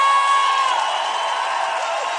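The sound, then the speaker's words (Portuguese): A church audience applauds and cheers with whoops and raised voices blended into a bright, sustained roar that stays fairly loud and even, easing slightly after the first moment. “aplauda o Senhor!”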